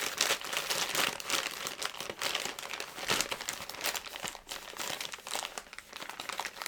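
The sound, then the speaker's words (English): Stiff plastic packaging on a box is stabbed and ripped open, producing quiet, irregular crinkling and crackling with scattered sharper tears and rustles throughout. “I'm gonna stab with this plastic like there's no tomorrow. Just rip to it.”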